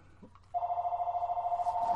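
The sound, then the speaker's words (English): A mobile phone rings with a steady, mid-pitched electronic tone that warbles in quick, even pulses. It starts abruptly after a short quiet lead-in and keeps going, fairly loud and alone. “Oh, who's phoning me?”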